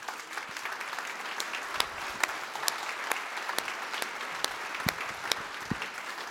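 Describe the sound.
An audience applauds to welcome a guest speaker onto the stage, a continuous, even wash of clapping with scattered sharper claps, steady in level for several seconds.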